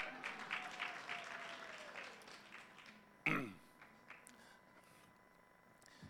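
Faint applause for the Lord from a church audience, a rhythmic patter of clapping that fades out, followed by a single sharp knock and quiet room tone.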